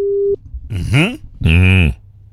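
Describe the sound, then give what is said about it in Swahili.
A short steady telephone ring tone sounds as a Kenyan radio station dials a listener, cut off after a fraction of a second and followed by voices. “Tuangalie pale. Simu yake inaitana.”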